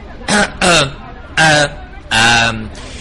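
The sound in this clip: A man, a driver, clears his throat in four short, voiced rasps with brief pauses between them, heard clearly over a quiet background.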